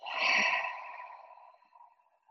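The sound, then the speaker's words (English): A single deep breath from a guided breathing exercise of inhaling through the nose and exhaling through the mouth. The loud, airy rush swells quickly, then thins and fades away over about two seconds. “Big inhale through the nose, and a big exhale through the mouth.”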